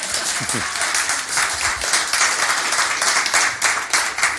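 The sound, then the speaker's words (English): Applause from an audience at an Easter Sunday church service: a dense, steady patter of many hands clapping, fairly loud and continuous through the whole clip. “You can go ahead and clap if you'd like”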